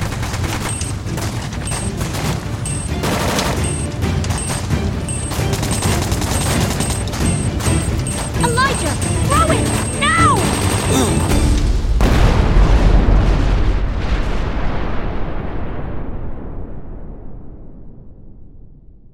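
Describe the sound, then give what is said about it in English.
Grenade explosion in a firefight beside a burning cart: dense, rapid gunfire and booms crackle continuously for about twelve seconds, then a deep, loud, rumbling blast swells and slowly fades away. “I pulled out a grenade and engaged it, knowing that this was our only way out.”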